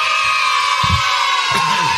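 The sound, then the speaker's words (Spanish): Children cheering and shouting together in a loud, continuous burst of joyful crowd noise, right after a car dealer's giveaway of national team shirts. A few louder swells rise within the steady roar. “La alegría de los pibes es tremendo. Es tremendo. Aparte nos imagino todos juntos gritando. Todos juntos gritando. Como... Ahí está, mirá. Está buenísimo. Te pone contento. Ya escuchá a los chicos, te pone contento.”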